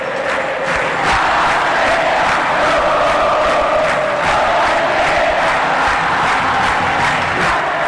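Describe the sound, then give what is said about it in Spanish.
Olimpia supporters chant together in a football stadium. A thick, loud wall of massed voices continues without a break, with sung tones carried inside the steady crowd roar. “La hinchada Olimpia.”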